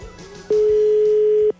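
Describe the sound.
A telephone ringback tone sounds while a call waits to be answered: one steady tone about a second long at a single pitch, with only faint background noise before and after it.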